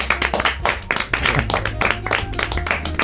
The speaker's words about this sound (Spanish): Un aplauso.